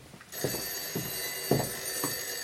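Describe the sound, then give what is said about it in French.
A telephone ringing repeatedly: a series of short, fairly faint bell bursts at roughly half-second intervals over a steady background hiss, with no voices. “Il faut m'excuser, mais c'est toujours comme ça ici. Le téléphone n'arrête pas.”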